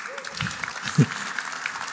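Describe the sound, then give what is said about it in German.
Applause from an audience at an aviation gathering, a steady patter of clapping at moderate level with one slightly louder burst midway. “Vielleicht hat er einen kleinen Applaus verdient.”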